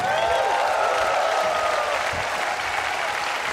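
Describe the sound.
Audience applause welcoming a performer back on stage, dense and steady clapping from a crowd that holds at an even, loud level throughout, with no talking over it.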